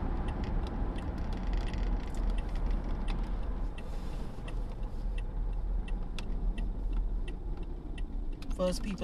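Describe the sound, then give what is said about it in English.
Steady low road rumble from a car driving in traffic, a constant engine-and-tyre drone with faint, irregular ticking clicks scattered over it throughout. “I'm driving, as I said, and I'm in traffic, and I missed my turn.”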